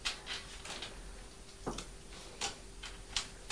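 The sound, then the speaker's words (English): Faint, sharp ticks from a screw being tightened as a child builds with a construction toy. A few brief clicks are spaced irregularly over low steady background noise, with no talk. “Would you like to tighten the screw there? Like that.”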